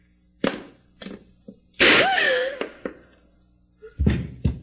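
A gun is thrown onto the floor as a sound effect in a radio drama. It comes as a few sharp thuds and knocks separated by short pauses, with a louder cluster of impacts near the end.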